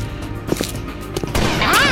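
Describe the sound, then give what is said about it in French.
Sniper gunfire in a shooter video game: a few sharp cracks punch through a dense, noisy game soundscape, followed by a louder rushing stretch toward the end. “Ah, putain de sniper. Hey, arrête de camper, on n'est pas dans Counter-Strike.”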